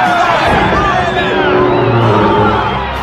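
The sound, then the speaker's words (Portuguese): Crowd cheering and whooping greets Team Toguro's entrance at the spiritual tournament, a loud, continuous roar of many voices with wavering whoops rising out of the din. “em pleno clima de euforia, o público recebe o time Toguro. A torcida inteira vibra com a entrada do time.”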